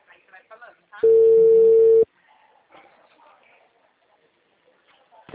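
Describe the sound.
A telephone tone sounds after a dropped call, one steady, loud tone lasting about a second, with faint talk before and after it.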